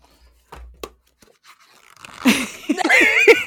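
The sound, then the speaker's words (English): Soft, faint papery rustles and flicks of pages being flipped through a manga volume, Chrono Crusade Volume 3, followed by people talking and laughing over the handling. “Gotta give us some foley of flipping through the pages”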